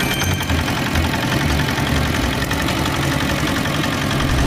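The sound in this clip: A fishing boat's engine idles at a steady, loud, continuous rumble, a dense low throb with a rattling mechanical texture, unbroken throughout and with no voices.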